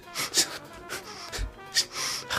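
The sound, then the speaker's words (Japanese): Forceful breaths, sharp inhales through the nose and hard exhales through the mouth, done as a fast breathing exercise for easing pain. Several loud, rough bursts of air come in an uneven rhythm. “鼻で空気思いっきり吸って口で思いっきり吐く”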